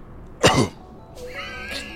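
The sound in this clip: A person's cough and throat clearing: one sharp, loud cough, then a softer, drawn-out tonal throat-clearing sound after a short pause.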